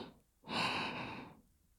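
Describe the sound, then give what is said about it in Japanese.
Soft breathy puff of someone blowing on food to cool it, a single faint airy blow lasting about a second, alone without talk. “ふうふうしますね。”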